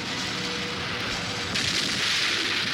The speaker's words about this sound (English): The blast-off was perfect.